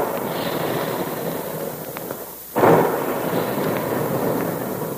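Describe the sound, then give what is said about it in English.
A single loud, sudden boom from the puffing guns in a cereal plant that shoot out puffed wheat and puffed rice. It bursts out after a brief quiet dip, over a constant rushing background. “And there go the big guns, reminding us all that puffed wheat and puffed rice actually are shot from guns right in the Quaker plant.”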